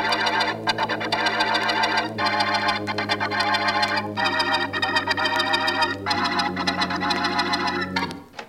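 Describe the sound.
A printing machine runs in a print shop, giving a fast, steady mechanical clatter over a low hum, with the rhythm shifting in cycles every couple of seconds before the noise drops away at the end.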